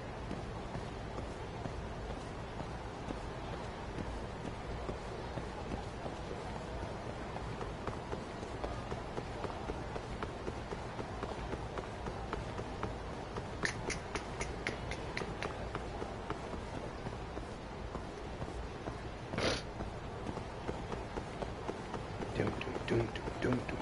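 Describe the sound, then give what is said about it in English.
A video game character runs on foot. Many quick, evenly spaced footfalls patter quietly and steadily, with a few sharper clicks breaking through later on. “I'm running. Oh, I'm running into the streets too.”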